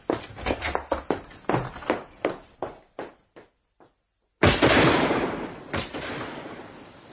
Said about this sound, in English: You fired into the air! Damn you, George!